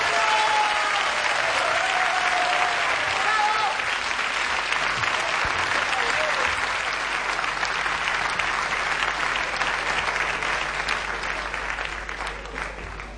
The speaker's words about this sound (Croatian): pa ja bi vas molio jedin aplauz da me ga pozdravite.